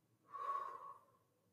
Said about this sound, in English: I want you to breathe in through your nose for three, and then out through your mouth for three.